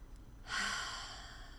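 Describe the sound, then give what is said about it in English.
A deep breath drawn through the nose: a soft, airy rush that starts after a short quiet pause and holds steady to the end, with no talking. “So if you could just take a deep breath in through your nose and out,”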